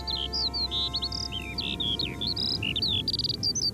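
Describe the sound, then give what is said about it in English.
A skylark sings a fast, unbroken stream of high, varied chirps and warbling trills over a low background rumble. “Have a listen to this skylark singing.”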